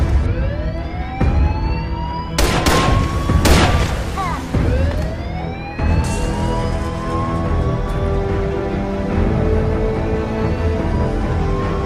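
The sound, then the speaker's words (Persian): Warning shots fired as a few sharp, loud bangs cut through wailing sirens that sweep upward in pitch, all over a dense, constant background roar. “شلیک هشدار. شلیک مرگ. شلیک مرگ.”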